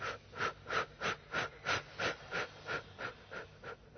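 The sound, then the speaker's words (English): Rhythmic breathing during a breathing exercise: a steady run of about a dozen quick, even breaths, each a soft airy swell, faint and alone with no talk. “Let's take some breaths and just kind of start clearing some of this, the residues of this out.”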